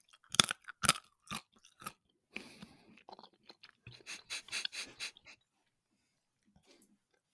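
Crunching bites into a carrot make a quick series of loud, crisp cracking bursts. Softer chewing crunches follow, then it fades to near silence.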